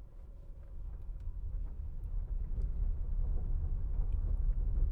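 Nissan Leaf electric car rolling down a dirt driveway, a steady low rumble of tyres on the loose surface that grows slightly louder partway through, with no engine note and no voices.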